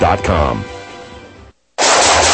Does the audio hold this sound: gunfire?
yes